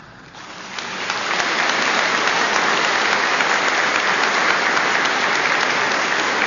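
Audience applause: dense, continuous clapping that swells within the first second and then holds at a steady, fairly loud level throughout, with no voices standing out.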